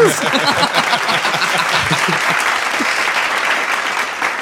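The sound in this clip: Loud applause from an audience for a band, with dense clapping throughout and some shouting voices early on, tapering slightly toward the end.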